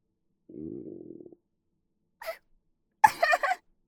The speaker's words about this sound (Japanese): 食事の話をした途端にお腹の虫が泣き出すなんて。